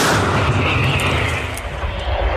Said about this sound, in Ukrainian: Постріл!